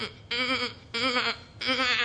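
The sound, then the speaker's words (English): A human voice imitates a mother goat bleating at her newborn kid, giving three evenly spaced, wavering, nasal bleats. “the goat would, mama goat would come real close and she'd say,”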